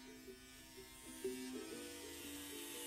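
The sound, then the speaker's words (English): An electric razor shaves off long blonde hair in a bathroom, a very faint, steady low buzz whose pitch wavers slightly as it moves. “In the bathroom, Sarah stands before a mirror, shaving off her long blonde hair.”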